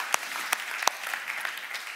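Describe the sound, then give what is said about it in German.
An audience applauds a band that stepped in to play at a live event. Many hands clap in a dense, steady clatter, with a few sharper single claps standing out, and no voices can be heard. “Komm, wir geben Ihnen mal einen Applaus.”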